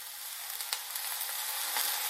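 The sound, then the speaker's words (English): Mushrooms sizzle in a frying pan as a spoon gently pushes them around: a faint, steady hiss with a few soft clicks and scrapes. “I just kind of like gently push the mushrooms around so they all, most of them anyway, are touching the bottom of the pan.”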